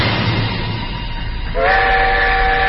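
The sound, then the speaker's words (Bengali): A train approaches with a loud, steady rumbling roar; partway through, a sustained whistle-like horn tone joins in and holds to the end. “হুঁশ হুঁশ করে তেড়ে আসছিল একটা আওয়াজ। রেলগাড়ির আগমন কানে আসতেই আমি চমকে উঠলাম।”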